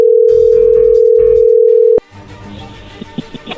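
A steady telephone tone sounds as a call is placed: one continuous mid-pitched hum lasting about two seconds, cut off by a sharp click and followed by quieter, scattered line noise.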